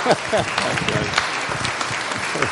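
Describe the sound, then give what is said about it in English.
A crowd applauds the people who have just acted out the Mary Magdalene story, a sustained, busy clatter of many hands at a fairly loud, even level. “Well done, people. Let's give them a clap.”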